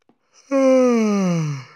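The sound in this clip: A single drawn-out human yawn, voiced and smooth, with its pitch sliding steadily downward over about a second after a faint intake of breath.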